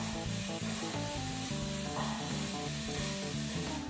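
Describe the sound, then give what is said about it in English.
Bacon and eggs frying in a pan: a dense, continuous sizzle with crackling that holds at a steady level throughout, with no voices. “Wait, I'm going to make you something to eat. Bacon and egg.”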